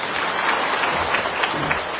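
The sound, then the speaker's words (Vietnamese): Audience applause at a talk, a dense, continuous patter of many hands clapping without a break. “nhưng mà đúng với ý tôi thì tôi tự nhiên cho một tràng pháo tay.”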